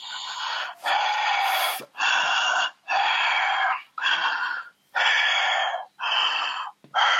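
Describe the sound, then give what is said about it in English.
Heavy, forceful breathing in and out during a deliverance prayer session: loud, rough breaths follow one another in a steady run with short gaps between them, with no talk over them. “Just breathe in and out 5 times heavily.”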